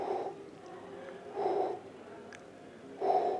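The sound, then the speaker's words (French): A voice imitating faint breathing heard in a room at night: three soft, breathy puffs, evenly spaced and low in pitch, with quiet pauses between them. “Alors peut-être pas à ce rythme-là, mais j'entendais vraiment une sorte de respiration qui habitait un petit peu toute la pièce.”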